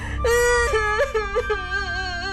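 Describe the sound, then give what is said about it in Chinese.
A girl crying and sobbing: a loud, high, wailing cry with wavering pitch and a few catching breaks. It is heard alone, with no talk. “祖祖一头倒在炕上哭了起来。”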